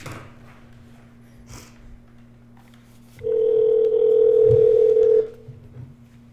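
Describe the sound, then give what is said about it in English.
Telephone dial tone heard while a call is being dialed: a quiet low hum with a few faint clicks, then a loud, steady, unbroken tone for about two seconds before it cuts off. “We are dialing the 40-ounce aficionado, Christian Grau”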